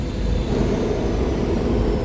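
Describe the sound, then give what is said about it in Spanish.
A space schooner lands at an inn's dock with a loud, continuous low engine rumble, a dense roar that stays steady in level throughout. “Un momento después, Jim vio aterrizar una goleta en el embarcadero de la posada.”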